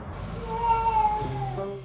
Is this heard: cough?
no